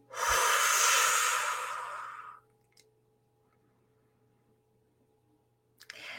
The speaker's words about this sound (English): Take a deep breath in. And then blow it out completely.